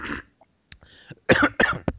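A person has a brief coughing fit: a few scattered harsh coughs and throat-clearing, then a louder cluster of rapid coughs near the end.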